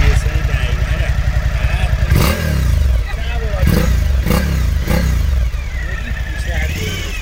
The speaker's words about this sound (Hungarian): én közben adok rá gyújtást, beindítjuk a motort.